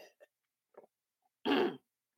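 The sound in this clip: A person clears their throat with a single short, rough burst, preceded by a few faint, brief vocal noises. The whole clip is quiet.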